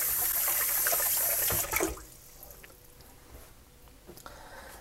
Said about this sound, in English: I got a little bit on my hand here. So I'm going to wash it off again.